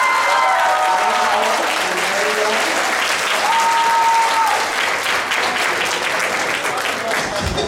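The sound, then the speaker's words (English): Audience applause rings out after an act at a costume showcase: a loud, sustained round of clapping that holds steady for several seconds without letting up. “Big round of applause for”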